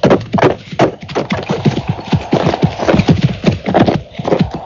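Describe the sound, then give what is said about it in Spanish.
Horse hooves clip-clopping at a steady pace along a short road leading to a house: many sharp hoof beats in a continuous, even rhythm. “Mientras observaba tales cosas, cabalgué por una corta calzada que me condujo a la casa.”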